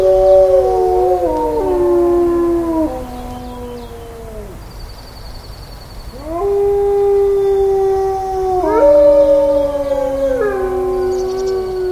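Wolves howling at a wolf discovery center near Yellowstone: several loud, overlapping howls hold a pitch and then slide downward, in two long waves separated by a short lull.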